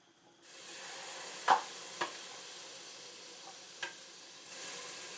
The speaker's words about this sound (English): Right, and into the pot the curry paste shall go.